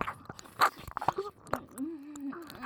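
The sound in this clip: Faint, wet chewing of food, with soft irregular crunches and mouth clicks and a low voice murmuring underneath.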